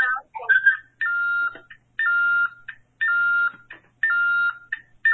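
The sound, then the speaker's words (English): Electronic beeping on a group call, like telephone dialing tones: a bright tonal pattern repeats about once a second several times. Each burst is a steady tone framed by short chirps, with no talk over it. “what's that beeping?”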